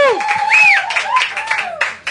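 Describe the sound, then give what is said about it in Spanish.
Studio audience applause at a live radio show, with clapping and bright whoops and calls from the audience mixed together in short bursts. “El aplauso del público hasta ahora aquí en la noche, bravo.”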